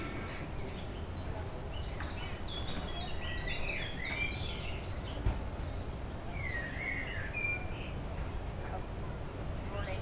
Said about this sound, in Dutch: De vogeltjes doen lekker mee.